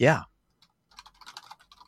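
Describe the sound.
Typing on a computer keyboard while taking a note: a short voiced burst, then after a pause a quick run of many light key clicks in an uneven rhythm.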